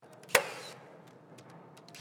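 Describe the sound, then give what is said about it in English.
Nail gun firing in a home-building factory: two sharp punching cracks, one early and one at the very end, the first trailing a brief ringing tail, over a low steady background of factory noise. “This sounds like it could be any construction site, with the constant punch of nail guns and the whine of power saws.”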